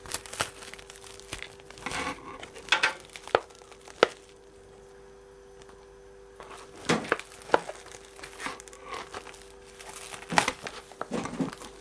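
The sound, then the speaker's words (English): Crinkling and tearing of plastic packaging being pulled off while making mushroom soup, heard as irregular bursts of crackly rustling with a quiet pause partway through. “Now we've got to go get the plastic off.”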